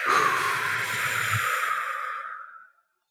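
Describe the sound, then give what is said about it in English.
A deep breath during a guided breathing exercise: one long, airy rush of breath that holds steady for over two seconds, then tapers and fades out. “We'll just inhale now. Like, and exhale the body.”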